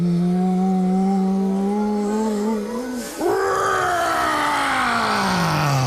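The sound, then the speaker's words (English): A voice imitates a dragon taking the deepest possible breath and then breathing fire: a long, loud groaning tone, a brief break, then a rough roaring blast that slides downward in pitch. “Dragon takes the deepest possible breath.”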